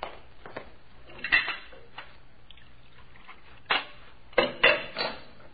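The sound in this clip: Coffee cups and dishes clink as coffee is served, with a few sharp, bright clinks scattered over a faint low background hum.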